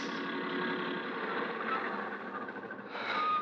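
A car on a main highway gives off a steady, broad engine rumble that holds evenly throughout, shifting in tone briefly near the end.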